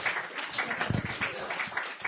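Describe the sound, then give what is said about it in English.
Audience applause at a poetry night reading, a continuous dense patter of clapping that stays fairly even in loudness throughout the short stretch. “Give him a hand.”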